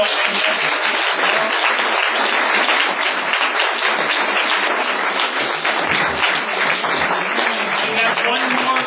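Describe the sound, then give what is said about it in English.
Applause from an audience after a speech at a community meeting: dense, steady clapping that stays loud and even throughout, with no pauses or voices breaking through. “Folks, round of applause for”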